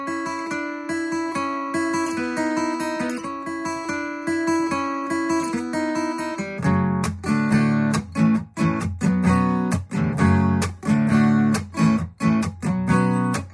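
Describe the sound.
Electric-sounding guitar picking out a single-note intro figure on the B and G strings around the fifth and sixth frets, notes repeating in a steady pattern, then shifting to louder, sharply accented rhythmic hits in the second half.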